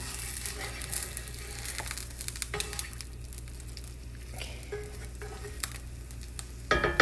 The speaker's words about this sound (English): Okay, now flip the egg over, we're almost ready to plate them.